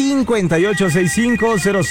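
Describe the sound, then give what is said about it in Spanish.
A telephone ringing on a radio show's phone line, a loud, warbling electronic ring made of rapidly repeated tone pulses that each rise and fall in pitch. “Así es que es tiempo de que suene el teléfono. En este momento está sonando la línea número uno.”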